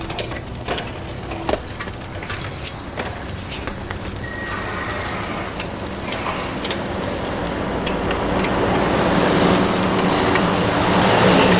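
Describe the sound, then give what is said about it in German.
A furniture removal truck drives past, its broad engine and road roar swelling steadily and growing loudest toward the end, with a few sharp clicks early on. “Ein Möbelwagen. Kann er nicht rechts fahren, so wie wir auch?”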